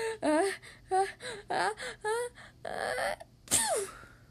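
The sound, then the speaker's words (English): A voice acts out a sneeze, building through several drawn-out gasping breaths before one sharp, forceful burst near the end. “when I try to sneak, I sneeze.”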